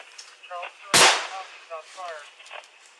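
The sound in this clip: One loud, sharp rifle shot from a high-powered rifle fired inside a house, captured on a police radio channel, with clipped radio voices talking before and after.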